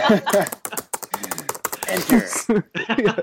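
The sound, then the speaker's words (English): Fast hacker-style typing on a keyboard, a rapid, uneven flurry of many clicks and taps heard alongside a talking voice. “she's counter hacking me so hard right now. This though. Look how fast I can type.”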